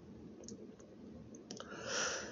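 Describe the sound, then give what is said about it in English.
A computer mouse clicks a few times, with light, sharp, faint clicks spaced irregularly over a soft background hiss. “After that, I click on the program and it comes up”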